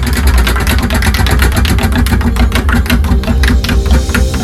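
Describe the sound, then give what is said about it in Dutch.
A prize wheel spinning during a televised game makes a dense, rapid run of clicks over a low rumble, loud and steady throughout. “Hoor dat rad gaan.”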